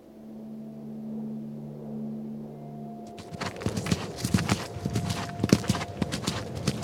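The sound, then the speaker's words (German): Horse hooves clip-clopping as a rider travels through dark gorges, a steady run of many hoof strikes that begins about halfway in, after a low droning tone, and continues to the end. “Tanabai ritt durch dunkle Schluchten.”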